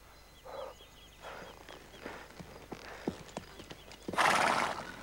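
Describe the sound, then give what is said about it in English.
A mare being ridden and slowing down, irregular clip-clopping hoofbeats mixed with whinnying calls, ending in a loud, breathy burst from the horse. “Jim steadies the mare as he slows and rides alongside.”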